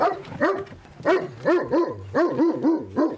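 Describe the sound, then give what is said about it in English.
A fierce, intimidating-looking dog barks and yelps in a radio studio, giving many short, loud barks in a steady rhythm with whiny rises in pitch, and no talk over them. “This guy is a beauty. He's a fierce-looking dog. When I met this guy first, I went, whoa. But... Well, I could just say, looking at this dog, it's quite an intimidating-looking breed, right?”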